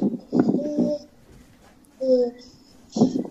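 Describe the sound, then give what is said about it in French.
A young child crying through someone's open microphone: three short bursts of vocalizing with thin, wavering wails, separated by pauses. “Quelqu'un a son micro ouvert et l'enfant en train de pleurer.”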